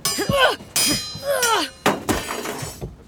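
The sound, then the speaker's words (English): A sword is dropped during a mock swordfight and clangs to the ground with sharp, ringing metallic clinks, mixed with raised voices. “I dropped my sword.”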